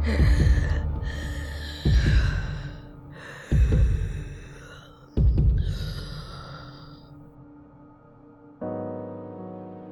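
Labored gasping breaths from a woman with tuberculosis choking on blood: four heavy, breathy gasps at fairly even intervals, each loud at onset and then trailing off, followed by a steady low tonal hum at the end.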